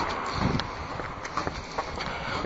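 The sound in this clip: Footsteps walking along a narrow alley off a main road: a few soft, steady steps over constant outdoor street noise.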